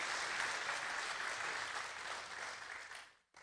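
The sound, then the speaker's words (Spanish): Audience applause for a small group during a bilingual church service: steady, dense clapping from many hands that holds for several seconds, then fades out abruptly near the end. “Can we give our small group a hand? Podemos dar un aplauso a nuestro pequeño grupo que quedó conectado.”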